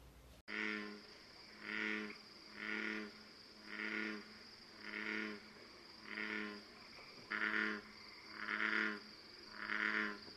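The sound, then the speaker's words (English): An American bullfrog calls in a long, evenly spaced series of deep, resonant, buzzy croaks, each lasting about half a second. A thin, steady high insect drone runs underneath. “what you just heard was an American bullfrog. They are the largest true frogs found in North America.”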